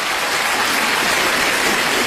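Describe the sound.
A crowd applauds on cue before a rock-and-qinqiang opera number, the clapping dense and loud, blending into a steady rain-like wash that stays even throughout with no voices on top.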